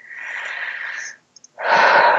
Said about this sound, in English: Big deep breath again.